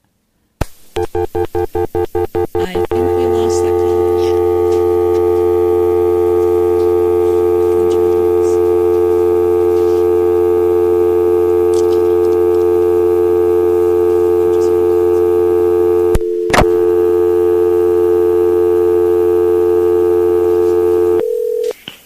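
A telephone line after a caller's call dropped: a quick run of dialing beeps, then a loud, steady multi-pitch line tone that holds for a long stretch, broken once by a brief gap.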